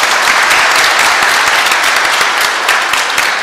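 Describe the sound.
Applause welcomes a visiting priest from San Diego during a church service before Christmas: dense, steady, loud clapping from many hands that continues unbroken throughout.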